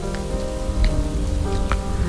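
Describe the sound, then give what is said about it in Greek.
Heavy rain pouring down hard enough to flood a city avenue: a dense, steady roar of water hitting surfaces, loud and unbroken throughout, with a few brighter drip and splash accents on top and no voices. “Και έπειτα η βροχή, μια λεωφόρος που μετατράπηκε σε ποτάμι, ένας δρόμος που ξαφνικά έπαψε να είναι συνηθισμένος”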